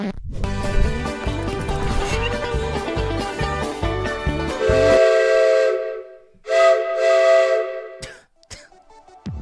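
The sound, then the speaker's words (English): A steam locomotive whistle blows a loud, harmonic tone over rhythmic chugging pulses, then sounds again alone in a shorter blast before trailing off. “We boarded the locomotive.”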